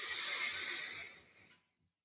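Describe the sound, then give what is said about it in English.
Slow, deep breathing: a single long, airy breath that holds steady and then fades into silence, with no talking. “Every single time you breathe in, I want you to breathe in compassion.”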